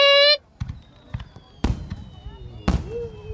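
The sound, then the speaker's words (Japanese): Fireworks go off after a brief high electronic tone: a few sharp booming bangs, two of them loudest, with thin whistling streaks trailing between the bursts. “どう上がってます。はい、いい花火上がってますね。”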